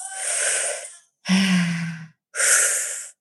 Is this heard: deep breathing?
yes